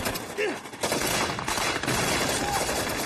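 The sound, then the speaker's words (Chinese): Dense gunfire from soldiers defending a bunker against charging demolition troops, heard as a loud, continuous crackle of overlapping shots with no clear gaps throughout. “爆破手们迎着密集的子弹冲向美军碉堡”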